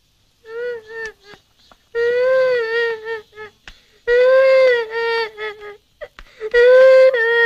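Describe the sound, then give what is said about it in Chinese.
A child crying: loud, high-pitched, wavering wails in several bursts, broken by short breathy catches and gaps, with no clear speech. “怎么了？啊，别哭。”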